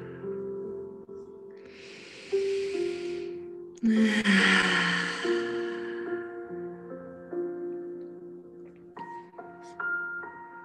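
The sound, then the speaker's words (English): Slow breaths drawn in through the nose and let out through the mouth during a guided meditation: two soft, airy rushes of breath, the second fuller and longer, over sustained gentle musical tones with a few chime-like notes near the end. “going to inhale through our nose and exhale through our mouth.”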